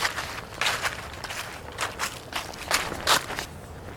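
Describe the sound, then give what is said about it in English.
Footsteps crunching over loud, dry leaves: many brittle, rustling steps in a steady walking rhythm over a constant low background, with no talking. “These leaves are sure loud to walk over.”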